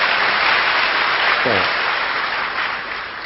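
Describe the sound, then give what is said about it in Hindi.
Audience clapping for a woman at an Om Shanti gathering: a dense, even burst of applause that holds steady and eases slightly near the end, with a brief voice heard in the middle. “हाँ, बजाइए ताली बहन जी के लिए।”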